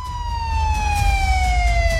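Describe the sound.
Siren from a police car: one long wailing tone drifts slowly downward in pitch over a steady low rumble, loud and continuous, with no talking.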